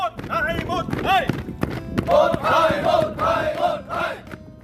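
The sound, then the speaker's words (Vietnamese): Submarine crew sailors run in formation on command, their rhythmic footfalls thudding under loud shouts chanted in unison by the group. “Để đảm bảo đồng đều thống nhất, các kiếp tàu chạy theo đội hình đều tăm tắp theo khẩu lệnh.”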